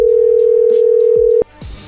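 Unanswered telephone call ringing on the line: a single loud, steady, low-pitched ringback tone holds for over a second, then cuts off, leaving faint background noise.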